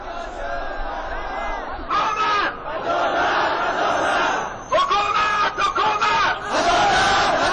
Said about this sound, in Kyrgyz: Колдоруна өкмөткө каршы ар кандай жазууларды көтөрүп алган миңдеген хазарлар бүгүн Кабулдун көчөлөрүндө адилеттик, адилеттик, бизге адилеттик керек деп кыйкырып жүрүштү.